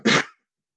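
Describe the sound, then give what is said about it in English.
A single short, wet cough: one brief, harsh burst that fades quickly into silence. “No, that was just a regular cough. Yeah, it was a regular cough. Very wet cough.”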